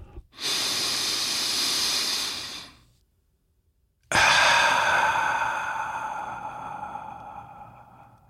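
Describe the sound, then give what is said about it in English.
A slow, deep human breath taken at the start of a guided session. A hissing inhale of about two seconds is followed by a short silence, then a long, airy exhale that fades gradually over roughly four seconds. “Let's take a deep breath.”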